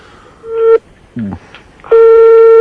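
A telephone busy signal sounds after dialing. A steady, bright tone breaks off, a brief lower burst follows, then the tone returns and holds until the end.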